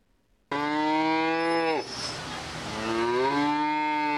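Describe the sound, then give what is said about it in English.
A cow moos in the beef barn at the Adams County Fair in central Nebraska during 4-H livestock showing. It gives one loud, drawn-out, low call whose pitch dips midway, then rises again toward the end. “The Adams County Fair continues this weekend, or should I say, continues this weekend, as 4-H competitors from all over central Nebraska came to show their cattle Friday.”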